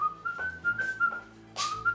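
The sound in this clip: A man whistles a repeated tune as he strolls along a hallway in a veterinary practice. The whistle is clear, steady and mid-pitched, with gentle wavering and a few short breaks between phrases.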